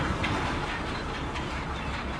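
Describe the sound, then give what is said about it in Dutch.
A heavy ship anchor chain with huge links runs out as the anchor drops toward the North Sea bed, giving off smoke and rust: a loud, steady, unbroken metallic rattling clatter that holds for the whole stretch. “Ik hoor al wat geluiden. Van die schalmen, die hele grote kettingen.”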